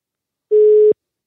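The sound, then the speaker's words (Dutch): A single short telephone tone sounds as an outgoing call rings out: one steady, mid-pitched beep lasting under half a second, alone against silence. “Twan van Peperstraten, we gaan hem even bellen”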